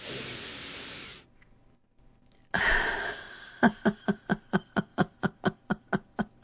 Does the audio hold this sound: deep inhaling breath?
yes